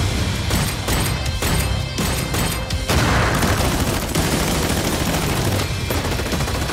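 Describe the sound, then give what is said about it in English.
Rapid gunfire from a shooter video game, dense continuous bursts of loud shots and booms throughout with no talking. “A shooter. It's probably Escape from Tarkov or something.”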